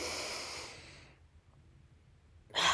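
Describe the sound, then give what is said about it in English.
A deep breath drawn in and released during a guided grounding exercise: a long, soft, breathy rush that slowly fades out, a quiet pause, then another breath begins at the very end. “let's go ahead and take one deep breath together.”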